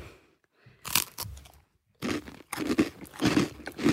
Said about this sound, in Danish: Nu har jeg lavet en lidt grov version, så kan du få lov at smage. Det er jo meget pesto. På? Ja. Synes du, der er for meget på knækbrødet?